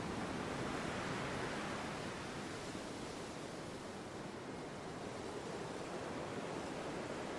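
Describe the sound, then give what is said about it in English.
Wind surging through trees, a dense, steady roar of rushing air that fills the whole stretch with only slight swells and dips in loudness. “In great surges, the wind seems to smash through the trees behind you.”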